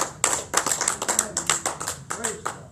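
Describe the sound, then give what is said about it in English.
A church audience clapping their hands in praise: many quick, fairly loud claps in an uneven, lively rhythm, sustained throughout. “Somebody give him a hand clap of praise.”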